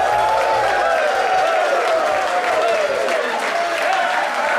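A live studio audience on the Boston College campus applauds a welcome, with dense, steady clapping and crowd noise that stays loud throughout.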